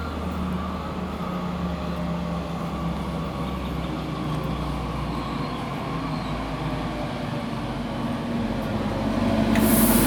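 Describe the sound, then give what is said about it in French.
A train from Marseille-Saint-Charles bound for Aix-en-Provence pulling into a station platform: a continuous low rumble with steady mechanical noise that swells louder near the end. “Marseille-Saint-Charles et à destination d'Aix-en-Provence, départ initialement prévu à 0h17, va entrer en gare voie B. Éloignez-vous de la bordure du quai, s'il vous plaît.”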